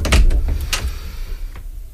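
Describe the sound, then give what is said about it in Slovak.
Knocks on a door, a few dull thuds close together at the start and one more softer knock toward the end, alone without voices. “niekto mi klope na dvere. Veď už idem. Idem.”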